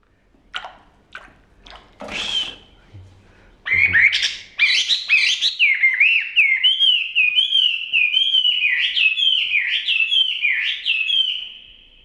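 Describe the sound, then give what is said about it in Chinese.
A pet hwamei thrush chirps while being bathed. After a few short, sharp sounds at the start, it breaks into loud, continuous, rapid warbling song with repeated whistled phrases. “这是一位老人在给他养的画眉鸟洗澡，看着小鸟蹦蹦跳跳，叽叽喳喳，老人一脸慈爱的表情。”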